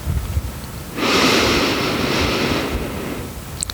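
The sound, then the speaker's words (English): A slow inhale through the nose during a 4-7-8 breathing exercise: one steady, airy rush of breath lasting about a second and a half, heard alone in quiet. “Inhale through your nose for a count of four.”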